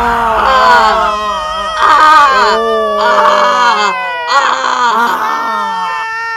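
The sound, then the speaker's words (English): A deep-voiced woman's horror-movie scream, performed as several drawn-out, low-pitched wailing bursts that waver and strain. The bursts are loud and come one after another with brief breaks between them. “it is kind of hard to get a great horror movie scream with that. You have to work extra hard for a scream at that level.”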